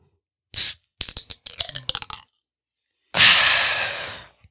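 A drink can cracks open with a short, sharp hiss, followed by a run of light clattering taps and later a long, loud breathy exhale.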